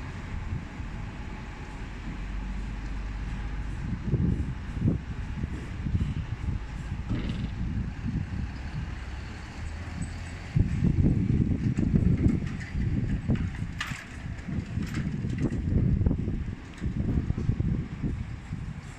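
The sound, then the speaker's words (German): Outdoor ambience on a town hall square: a steady low rumble of passing cars and wind runs throughout and grows noticeably louder about midway. “du hörst vielleicht Autos, ein paar Menschen und den Wind.”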